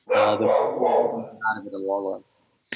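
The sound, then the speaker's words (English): A dog barks inside a house, a few loud, full-bodied barks in quick succession that fill the first second or so and then trail off into quieter yips. “You just got to meet my dog, but I thought we were good. I thought she was out back, but I guess she got back into the house.”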